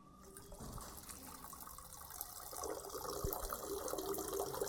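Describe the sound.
Water running in a urinal in the Swiss Federal Parliament building, a faint, steady rushing and trickling that grows slightly fuller and louder toward the end.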